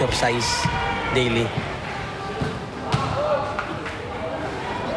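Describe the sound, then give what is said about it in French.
A basketball bounces with a few dull thumps at uneven intervals as prisoners play during daily exercise in a prison yard, under steady chatter and shouts from many men. “Ils jouent au basket. C'est une activité journalière autorisée pour faire de l'exercice.”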